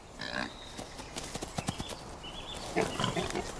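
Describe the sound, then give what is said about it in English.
Short squeaks and grunts from a wild boar piglet in a forest, a few brief calls at the start and end with quick clicking, trotting-like steps and rustling in between. “This stripy piglet, known as a humbug, is part of a wild boar baby boom.”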